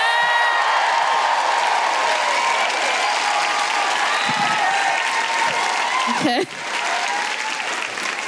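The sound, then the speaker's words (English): An audience applauds, cheers and woohoos as a comedian is welcomed to the stage at a live comedy show, a loud, steady wash of clapping with shouting voices throughout. “Please welcome to the stage with incredible woohooing and a certain amount of trepidation, Alison Spittle!”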